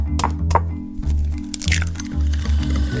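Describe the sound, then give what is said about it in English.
Eggs being cracked into a butter and sugar mixture: two sharp, brittle cracks early on, followed by soft wet squishing, all over steady background music. “You add some butter, and then some sugar, crack in some eggs.”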